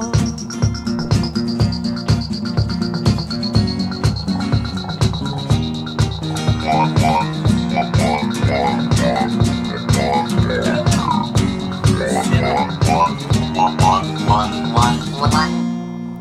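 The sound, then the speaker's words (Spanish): Rhythmic toad croaking at the close of a song: repeated croaks over a steady pulsing beat and sustained musical tones, loud throughout. “Tremendo ese sapo al final.”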